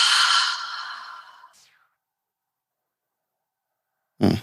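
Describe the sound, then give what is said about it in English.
A deep breath drawn in and let out as a long, breathy sigh during a calming breathing exercise, lasting about a second and a half, then silence before a brief sound at the end. “Take a deep breath in. And then exhale, let it go.”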